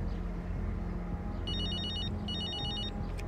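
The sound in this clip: A telephone ringing in two short bursts of high, trilling electronic tone, each under a second long, over a loud steady low rumble.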